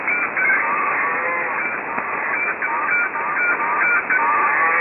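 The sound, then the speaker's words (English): Geese honk in a barnyard fight, harsh overlapping calls and squawks running continuously and loudly throughout with no break. “Sounds like a fight in the barnyard.”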